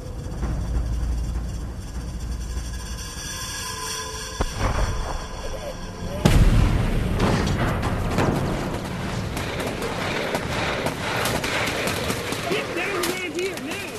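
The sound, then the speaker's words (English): Combat sounds from a war documentary: an airstrike on an enemy position with gunfire. Steady rumbling fire gives way to a loud blast about midway, followed by dense, rapid bursts of gunshots that continue to the end. “an airstrike has been called in on an enemy position. And just the soundtrack will kind of tell you everything you need to know here. This is from Hornet's Nest.”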